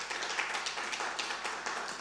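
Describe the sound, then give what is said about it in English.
An audience applauds during a church service: steady, dense clapping that stays fairly faint, with no talk over it. “Clap for yourselves right now.”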